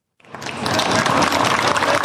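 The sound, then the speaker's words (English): A small crowd of young men and boys erupts in cheers around a makeshift kickboxing ring in Mount Hagen, Papua New Guinea. After a brief silence the noise bursts in and swells into a dense, loud, sustained roar. “The small crowd erupts when either of the two fighters they're watching lands a good kick or punch.”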